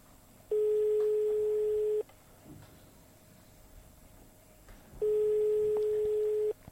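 Telephone line tones during a call: two long, steady mid-pitched beeps of equal length separated by a pause, loud against a faint low background hiss.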